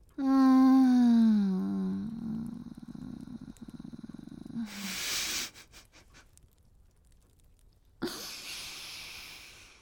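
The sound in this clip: A cat gives a long, loud, drawn-out cry that sinks slightly in pitch. Quieter purring and breathy, rustling bursts follow, and one sudden sharp noise comes near the end.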